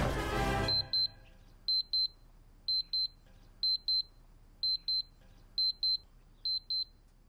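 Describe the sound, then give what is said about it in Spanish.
Electronic double beeps from a projection alarm clock ringing, sharp and high-pitched, repeating in seven evenly spaced pairs after a short loud burst of noise at the start. “Si sueñas con Star Wars, este es tu despertador. Proyecta la hora en la pared”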